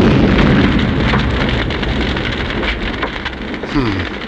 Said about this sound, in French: Lasso explosif. Ouais. En plus, voilà, il fait exploser. Il fait exploser un arbre.